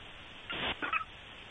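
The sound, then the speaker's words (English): Two short honking squeaks from a dog's squeaky toy shaped like a skillet with bacon and eggs, each burst bright and nasal, separated by a brief gap, over a quiet background. “Wait, what was that? We had a parrot? That is Murph's favorite toy. My girlfriend's trying to get him to bark more. He has like a little skillet with bacon and eggs on it”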